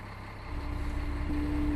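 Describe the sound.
A snowcat grooms a ski slope with a steady, low engine rumble and a constant hum. The drone swells slightly and then holds at an even level.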